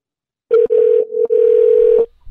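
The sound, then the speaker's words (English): A telephone ringing tone sounds on the line as a call goes unanswered: one long, steady, mid-pitched tone of about one and a half seconds, briefly broken near the start, then silence and a faint low rumble. “Phone just ringing somebody out of bed here.”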